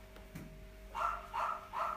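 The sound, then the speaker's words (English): Three sharp, high-pitched yaps from a small Bichon-type dog, evenly spaced in quick succession over a faint background hum. “Oh, shut up, little dog. I know, that is a gobby little dog. Is it a poodle? Oh boy. It's a Bichon-y type, yeah.”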